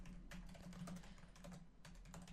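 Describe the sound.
Typing on a computer keyboard, a faint, continuous stream of rapid key clicks in an uneven rhythm.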